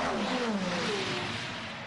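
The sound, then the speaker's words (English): Race car engine of the number 17 Genesis car during a race: a loud, sustained mechanical whine with strong harmonics whose pitch drops steadily across the two seconds, with no voices. “that's the Paul Loop Shannon's behind the wheel of that, the number 17 Genesis Magma Racing car.”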